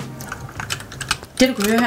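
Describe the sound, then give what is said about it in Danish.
Computer keyboard typing during a video game session at a weekend gaming event, heard as quick, light clatter of clicks, followed by a woman's voice speaking. “det er lyden af et tastatur”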